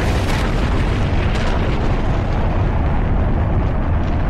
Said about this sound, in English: Mission Control, we have blastoff.